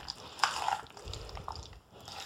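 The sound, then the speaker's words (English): Faint, soft, wet squishing and scraping as celery seed is stirred into potato salad. The sound runs continuously and stays quiet throughout. “I'm putting more celery seed in. This is a really important ingredient. You can't leave this one out. Stirring that in.”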